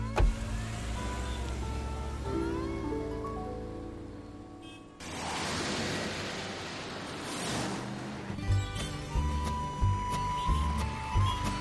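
A car driving off, its steady engine drone swelling into a broad whooshing surge midway, then settling into a rougher hum with a few light knocks, with no voices.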